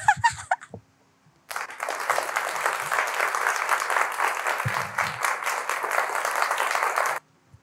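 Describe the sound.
An audience claps, a group of people applauding in a dense, steady wash of many hands that runs for about five and a half seconds at an even level before cutting off abruptly.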